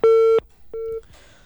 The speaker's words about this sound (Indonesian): Iya, terputus nampaknya. Ya, dicoba kembali Ibu Nur Leli.